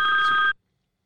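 A telephone rings once for an incoming call, a short, steady electronic tone that cuts off abruptly into silence.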